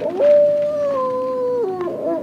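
A wolf howls at a wolf sanctuary in the high desert north of Los Angeles: one long, loud, clear howl held at a steady pitch before dropping lower near the end.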